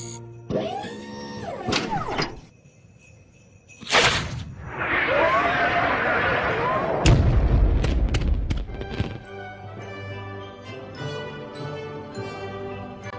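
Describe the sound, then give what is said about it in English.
Bombs exploding in a war scene set in Iraq: loud booms and whooshing blasts mixed with sustained tonal sounds, with the heaviest low rumble midway through. “you heard all the bombs go off there, and he brings Christmas joy to Iraq”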